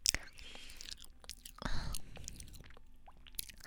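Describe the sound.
Quiet chewing of soft homemade cake, with faint moist mouth sounds and soft whispering voices.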